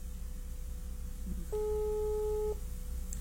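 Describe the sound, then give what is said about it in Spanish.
A telephone busy signal sounds on an unanswered call: one steady, pure-toned beep lasting about a second, faint over a low background hum, with no voices. “Y le marca uno, no contesta.”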